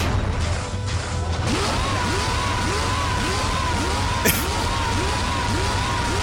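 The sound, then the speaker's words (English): A video game fighter kicking an enemy against a wall over and over: many rapid repeated hits with short whooshing tones, packed into a dense, continuous wall of noise. “the sound of him kicking this guy against a wall over and over and over.”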